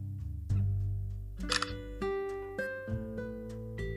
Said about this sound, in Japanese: 間違ってボタン押しちゃった。パシャって。